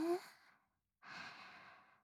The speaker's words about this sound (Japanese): さあ落ち着いて息を吸って